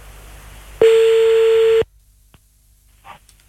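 A single steady electronic telephone tone, about one second long, sounds as a number is redialed to call someone back. It is followed by near silence with a few faint clicks.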